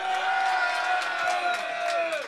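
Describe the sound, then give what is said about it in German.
A rap battle audience cheers, whoops and makes noise in a dense, continuous roar of many voices. Shouts rise out of the crowd wash throughout. “mach mal Lärm, wenn wir gerade ein überstabiles Army-Battle gesehen haben.”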